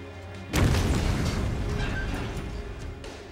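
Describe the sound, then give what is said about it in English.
A pipe bomb explodes at a newspaper office. A sudden loud, deep boom breaks over a low background and leaves a long rumbling roar that slowly fades away. “Fortunately, no one was injured in the blast”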